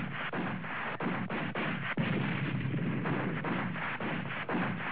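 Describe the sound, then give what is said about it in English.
Gunshots fired as warning shots: a rapid series of sharp, loud cracks over a dense, constant roar of noise. “That's a warning shot.”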